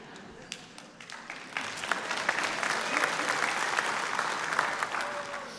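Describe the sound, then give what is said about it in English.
A church audience starts clapping. The applause begins lightly and swells within a couple of seconds into full, sustained clapping, then holds steady at that level. “you can stop clapping.”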